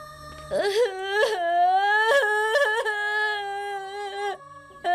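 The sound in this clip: A child crying in a long, loud, wavering wail broken by several sobbing catches in the voice, with no other sound around it.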